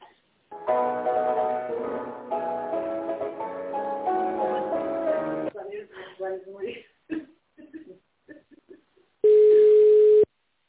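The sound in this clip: Telephone line tones while a business call is transferred: a held, melodic tone sequence that shifts pitch in steps, then a short stretch of a voice speaking, then a single steady mid-pitched beep about a second long.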